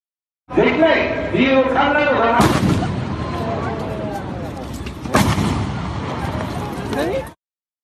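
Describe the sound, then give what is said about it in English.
Gunshots ring out at the assassination of Shinzo Abe, Japan's longest-serving prime minister. A voice speaks, then two loud, sharp blasts land about three seconds apart, each followed by sustained noisy commotion. “We begin tonight with the horrific political assassination of Japan's longest-serving prime minister, Shinzo Abe. The horrifying scene was caught live on tape, and I do need to warn you, the images are truly disturbing.”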